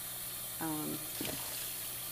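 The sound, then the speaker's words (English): Running water rinses soap out of a washed item, a faint steady hiss with a couple of brief louder splashes in the middle. “this way I can wash one. I have a little too much soap in one of these. It's like taking forever to get all the soap out.”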